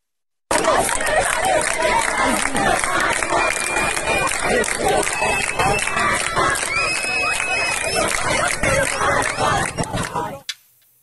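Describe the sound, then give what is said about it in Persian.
Crowd noise at a student protest gathering in Kohgiluyeh and Boyer-Ahmad: many voices chatter and shout at once over the bustle of moving feet. It stays loud and dense throughout, then stops abruptly. “اما در ادامه تجمعات اعتراضی دانش آموزان در شهرهای مختلف کشور که در همین بخش خبری به اون اشاره کردیم، ویدیوی تازه‌ای هم ببینیم از کوکیلوی و بوی رحمت که دقایقی پیش به دست ما رسید.”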